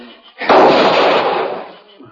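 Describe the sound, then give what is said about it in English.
A single loud gunshot rings out near a trading post with a totem pole, a sharp blast followed by a broad, noisy decay that fades over about a second. “the shots weren't coming from inside. Whoever was firing was using the Indian post for a shield.”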